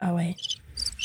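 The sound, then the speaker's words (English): Crickets chirping from a soundboard-button sound effect: a few bright, high trilling bursts follow a short spoken exclamation. “Crickets.”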